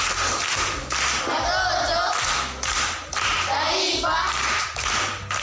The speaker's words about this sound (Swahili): Makofi kwa mjomba.